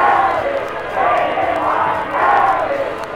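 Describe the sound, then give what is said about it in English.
A huge crowd roars in celebration of victory in Times Square, New York, a dense, steady din of many voices that swells and eases in broad waves without pause. “People who have seen Times Square celebrations before declare that this is the biggest spectacle in New York history. Estimates of the crowd go beyond 500,000.”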